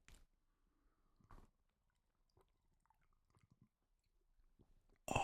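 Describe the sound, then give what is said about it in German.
Sips of tea as a few faint, soft slurping mouth noises, spread across a mostly quiet stretch and ending in a sudden loud burst. “Jetzt gibt es erstmal ein Schlückchen Tee.”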